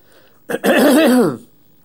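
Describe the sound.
One drawn-out, rasping cough or throat clearing comes from a man giving a religious sermon. It is loud, voiced and wavering, lasts under a second, and sits over faint background hiss with no talk.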